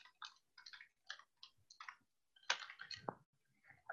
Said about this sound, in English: I'm going to try and type it on the screen. I'm trying to type it on the screen.